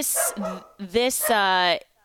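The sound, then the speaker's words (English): Three dogs bark while playing, a quick run of a few sharp barks and yips with a bright, whining edge, tumbling one after another before stopping abruptly. “so I have three dogs in the background today. They're all playing and it's a great time over here.”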